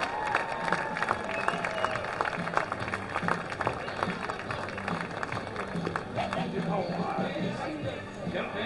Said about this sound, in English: Ladies and gentlemen, let's have a big round of applause for the South Bend Eastside All-Stars.